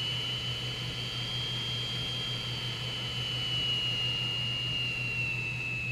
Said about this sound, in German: Schaut mal, wir fahren los. Und jetzt immer schneller und schneller. Wir fliegen.